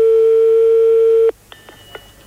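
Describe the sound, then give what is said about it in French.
Telephone dialing for a call to the gendarmerie: a loud, steady dial tone holds for over a second, then stops abruptly and gives way to a few short, fainter keypad beeps, with no voices. “Alors maintenant, j'appelle la gendarmerie”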